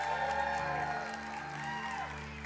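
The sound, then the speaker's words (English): A church audience applauding a couple welcomed back to the service: steady, dense clapping that holds at an even level throughout, over sustained musical tones. “Come on, give them a hand.”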